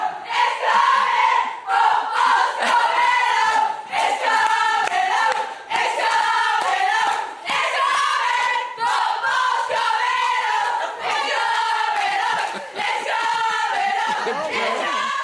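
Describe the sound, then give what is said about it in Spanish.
Women's football players storm a press conference, chanting and singing as they surround their coach. The loud group chant pulses in regular phrases, with short breaks between bursts throughout. “dando sus primeras impresiones, y de repente pasa esto, con todas las jugadoras que se meten de la conferencia de prensa. Miren, escuchen.”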